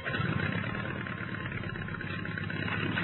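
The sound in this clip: Aircraft engines of a squadron of fighter planes run as they are started, a steady mid-pitched rumbling drone that holds at an even level throughout, alone without voices.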